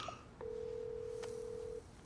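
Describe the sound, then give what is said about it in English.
A cell phone being dialed gives one short blip, then a single faint, steady tone that holds for over a second before cutting off. “He pauses the video game, then tiredly dials his cell phone.”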